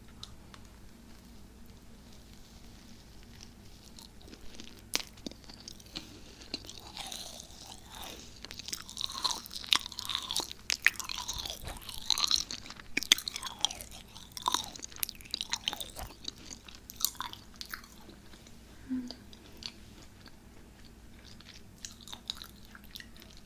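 Chewing a cream-filled macaron: crisp, crunchy bites give way to softer, moist mastication, with many small crunches and squishy chews in an irregular rhythm, fairly faint and with no talking.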